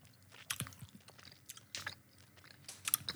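Chewing of sticky sour candy: moist, irregular smacking clicks and squelches as the sweet is worked in the mouth, with a few sharper snaps. No one speaks.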